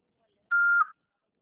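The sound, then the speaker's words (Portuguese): A voicemail recording beep, a single steady mid-high tone lasting about half a second, sounding alone in silence. “Após o sinal, fale o seu nome e deixe seu”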